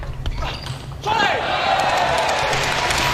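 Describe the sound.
Table tennis serve and rally as Moregard serves, the ball clicking in quick, light, irregular strikes under a commentator's voice.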